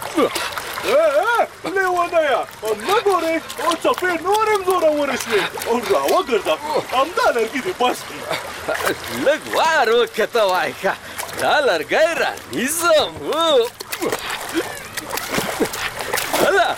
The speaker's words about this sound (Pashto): ته ګوره د سیلاو څپې څو غټ لرګی راوړ